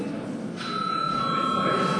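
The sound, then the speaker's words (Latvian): An electric bell rings in a parliament chamber to call a break in the session. After a brief quiet start, a steady, bright ringing tone sets in and holds unbroken to the end. “Lūdzu zvanu.”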